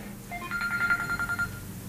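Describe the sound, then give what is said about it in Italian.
A telephone rings in a rapid, warbling electronic trill that lasts about a second. It is moderately loud over a low background hum and starts and stops cleanly. “mi ha squillato il telefono”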